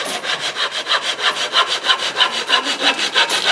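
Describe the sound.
A saw cuts through wood along a marked line in many quick, even back-and-forth strokes, loud and rhythmic, with no talk.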